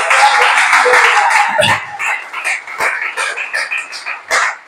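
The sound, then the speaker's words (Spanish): Applause from a church audience during a service: a dense, steady wash of clapping that thins into scattered, separate claps toward the end. “Amén, dale ese aplauso al Señor.”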